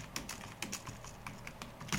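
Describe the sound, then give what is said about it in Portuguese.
Someone types on a computer keyboard at a desk with two computers and separate keyboards. A faint, irregular run of many light key clicks comes in quick bursts, with no voices. “Eu separo os teclados para não ficar muito confuso. Às vezes eu digito num, depois digito no outro.”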